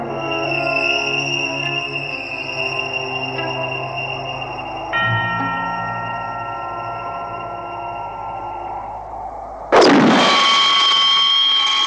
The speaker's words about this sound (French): Quand Fonda dit « Tu m'as appelé Franck », alors il prend le revolver. On voit le revolver qui tire.